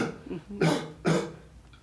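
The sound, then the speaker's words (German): Two sharp coughs come close together, given on request, each a short harsh burst standing alone without other sounds. “einatmen. Und husten.”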